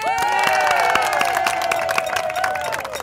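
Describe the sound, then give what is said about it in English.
Audience applause and cheering: loud, dense clapping with sharp individual strikes, voices calling out, and a sustained tonal whistle running through the noise before it slowly thins out. “we're gonna join in on Gus's show and get ready for an applause.”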